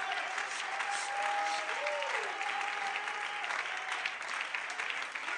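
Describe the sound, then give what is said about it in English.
A church audience clapping hands in praise of the Lord: dense, steady applause lasting several seconds, with a sustained tonal note held underneath. “Come on, let's give the Lord a hand clap.”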